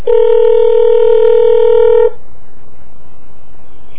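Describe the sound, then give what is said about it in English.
A telephone keypad sounds one loud, steady DTMF dialing tone that holds for about two seconds, then cuts off, leaving a faint, hissy line noise. “To reach Strom, dial 2. So then it's 8.”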